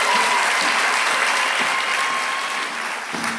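Warm audience applause welcomes a storyteller onto the stage at Melt Festival in Brisbane: dense, steady clapping from a crowd that holds throughout and eases off slightly at the end.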